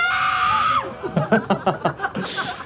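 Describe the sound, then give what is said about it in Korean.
An outdoor crowd outside the KBS building screams together in one sustained high shout, then breaks into a run of short rhythmic bursts like laughter and cheering. “얼만큼 더워요? 많이. 더운 만큼 소리 질러.”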